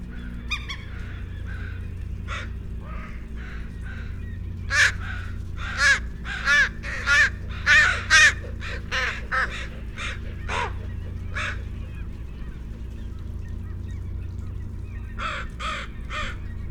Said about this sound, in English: Mobbing flock of northwestern crows, approximately 6 individuals